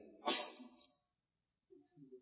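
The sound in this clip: A single sharp sneeze bursts out during a lecture on Islamic jurisprudence, loud and breathy before trailing off. A short, quiet voice follows after a pause.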